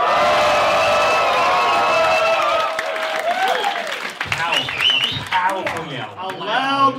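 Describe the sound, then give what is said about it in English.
Loud cheering, whooping and applause from a live audience at a show in Bristol. The dense roar of voices is strongest at the start, then turns into shouting and excited calls. “A loud audience.”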